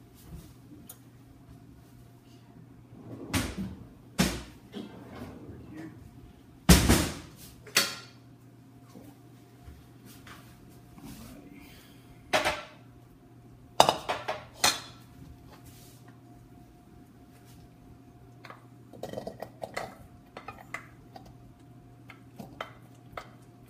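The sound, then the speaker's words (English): A pan and bowl clinking as steamed vegetables are moved from the pan into a bowl: scattered sharp, quiet clinks and knocks at irregular intervals, with no talk. “Put the steamed vegetables in, so I can use the same pan to cook the catfish in.”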